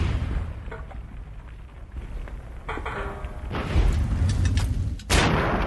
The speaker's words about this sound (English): Let's see how many grenades it takes to take him out.